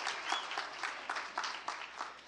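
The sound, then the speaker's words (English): Audience applause for a speaker, a short burst of fairly light clapping in which individual claps stand out, tapering slightly toward the end. “Let's give him a hand.”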